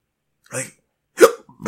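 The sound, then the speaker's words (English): A person hiccups a few times in short, sharp, throaty gulps, spaced apart by quiet pauses. The bursts are moderately loud and stand alone against silence. “I had the hiccups, which is horrible, because it always seems like I'm, like, really drunk”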